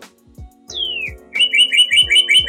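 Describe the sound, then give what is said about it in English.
Bird chirping in a recording booth: a single descending whistle, then a quick run of many bright, high, evenly repeated chirps, loud and alone. “Do you hear that sound? That bird in the podcast booth? It's the sound of the early bird getting the worm.”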